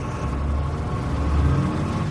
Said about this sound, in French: Le pin est ensuite emmené sur un camion. Direction New York.